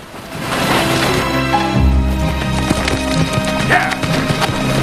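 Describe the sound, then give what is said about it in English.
Hooves of a horse ridden down a slope thud in a steady patter under sustained music, the clatter staying moderately loud throughout. “Billy rides a horse down a slope and halts the stagecoach.”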